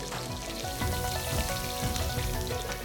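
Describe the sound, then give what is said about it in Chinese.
Finger-wide slices of fatty pork belly stir-frying in a hot wok until the fat renders, a dense, steady sizzle and crackle that keeps going without a break. “一指宽的大肉片炒至出油”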